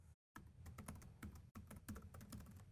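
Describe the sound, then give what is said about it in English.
Typing on a computer keyboard during a live on-stage demo: a rapid, irregular clatter of many keystrokes, briefly interrupted by a short silence near the start, with no voices. “This is why we don't like to do live typing on stage, because we always screw up.”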